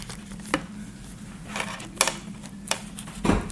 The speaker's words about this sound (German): ich muss nochmal schon umblättern